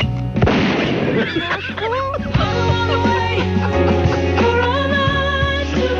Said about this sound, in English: And then, of course, you had to add the gun sound effect.